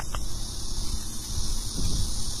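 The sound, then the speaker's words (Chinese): Cicadas drone in a city park in early autumn, just after the start of the season, a continuous high, even buzzing that holds at the same loudness throughout over a low background rumble. “虽然已经立秋一段时间了，但是依然可以听到这个秋蝉鸣的声音啊，声音还是很响亮的。”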